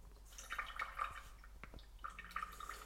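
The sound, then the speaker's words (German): Sour cherry juice poured off the fruit into a pot, a faint, steady liquid trickle dotted with small dripping plinks. “von den Sauerkirschen nehme ich mir jetzt nur den Saft weg und gebe den in einen Topf.”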